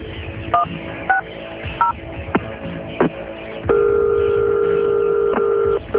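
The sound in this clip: A telephone keypad is dialed to call a guard, with a few short, two-toned beeps and soft clicks, then a long, steady, unbroken tone as the line connects.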